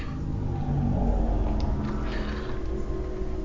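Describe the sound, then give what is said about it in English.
A car passes by with a low, rumbling engine drone that swells a little around the first second and then holds steady. “That car must be yours because it'll be time to get out of here.”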